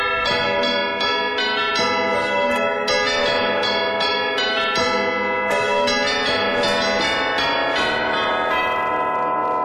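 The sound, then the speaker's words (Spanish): A village church bell rung very rapidly: many overlapping metallic strikes blend into a loud, continuous clangour with bright, ringing overtones. “Tocar la campana de la iglesia del pueblo te lleva 5 minutos. Rexona te protege 576 campanadas sin transpirar. Lo que sonaría más o menos así.”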